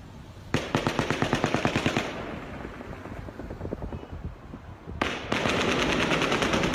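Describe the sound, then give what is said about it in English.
Rapid automatic gunfire during the Las Vegas mass shooting near Mandalay Bay: a fast, even burst of loud, cracking machine-gun shots, a rumbling quieter stretch, then another sustained rapid burst that runs to the end. “the burst of shots were very quick and they didn't last long”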